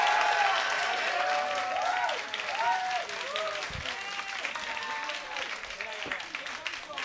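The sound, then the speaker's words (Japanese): Audience applause after a chiptune performance on X68000 and Amiga computers: steady clapping throughout, with voices calling and talking over it. “もう一回拍手お願いします。”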